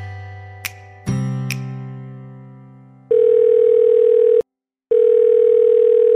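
A telephone call being placed: a low hum and a few sharp clicks, then a steady mid-pitched ringing tone that stops briefly and starts again, with no voices.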